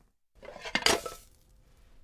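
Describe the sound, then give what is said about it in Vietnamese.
A frying pan and a plate clink and clatter as an omelette is flipped from the pan onto the plate. A short burst of metallic and ceramic knocks fades quickly into quiet. “Vậy là chỉ cần một động tác nhanh và dứt khoát, chúng ta đã chuyển cái phần trứng từ chảo sang đĩa.”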